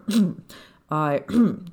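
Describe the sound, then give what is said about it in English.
A man clears his throat in a few short, rasping, voiced bursts, performed as part of a spoken story. “Mildly embarrassed over his words, he cleared his throat.”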